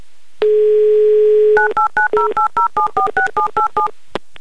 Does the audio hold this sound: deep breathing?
no